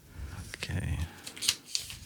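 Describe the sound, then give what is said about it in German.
Papery crackling as a folded paper question slip is opened, with a few short, dry crinkles and rustles followed by brief sharper snaps near the end. “Okay. Wir falten die Frage auf.”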